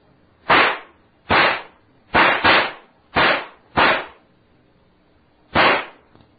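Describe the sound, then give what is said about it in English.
Gunshots fired at a rattlesnake: seven sharp, loud cracks in an irregular pattern, two in quick succession, and a longer pause before the last. No voices are heard. “Stand back, kid. I'm going to have to shoot it.”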